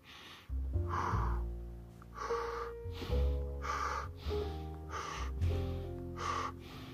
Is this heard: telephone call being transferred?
no

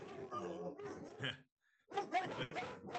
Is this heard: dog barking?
yes

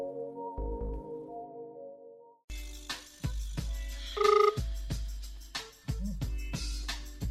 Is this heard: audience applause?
no

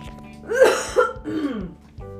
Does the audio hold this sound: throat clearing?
yes

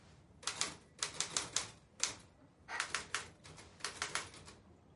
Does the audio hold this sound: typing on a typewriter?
yes

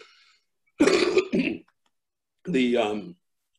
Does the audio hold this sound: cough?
yes

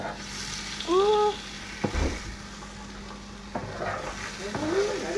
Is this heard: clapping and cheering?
no

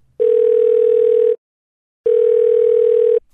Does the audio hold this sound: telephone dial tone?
yes

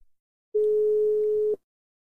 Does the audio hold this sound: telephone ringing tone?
yes

